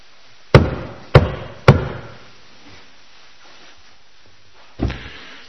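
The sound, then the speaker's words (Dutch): Knocking on a monastery cell door: three sharp, evenly spaced raps, then a long pause and one softer knock. “hoort Luther een klop op de deur”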